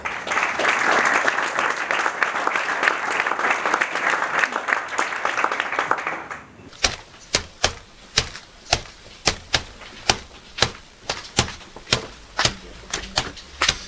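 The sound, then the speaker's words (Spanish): Dense, loud applause fills the first six seconds, then thins out into a sparse series of sharp, separate hits spaced irregularly until the end. “Aplaudimos.”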